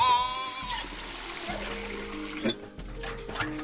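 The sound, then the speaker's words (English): Water runs from a sink into a shallow bucket, trickling and splashing in short uneven bursts. “He runs some water into a shallow bucket as Crusoe flounders in the bottom of the bin.”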